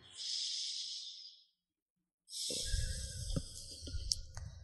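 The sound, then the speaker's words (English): A deep breath, heard as two long, airy, breathy sounds with a short silence between them. The second is rougher, with a low rumble beneath it, and no one speaks. “And take a deep breath.”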